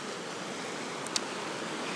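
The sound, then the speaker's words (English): A river flows down through a small wooded valley with pine trees and snow, giving a soft, steady rushing of water that stays even and unbroken throughout. “you can probably hear the river in the background. Such a beautiful scene. The river flowing down through this little valley here”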